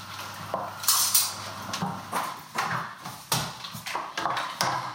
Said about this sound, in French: je mélange à ma préparation. Je mélange bien